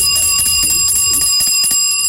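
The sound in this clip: A bell sound effect rings loud and bright, holding sustained high tones with a rapid pulsing edge throughout the short burst.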